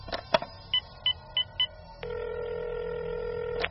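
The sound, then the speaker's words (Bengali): Telephone dialed to place a call: two sharp clicks, then four short beeping keypad tones, followed by a long, steady electronic tone that holds to the end. “ফ্ল্যাটে ফিরেই কর্নেলকে phone করলাম।”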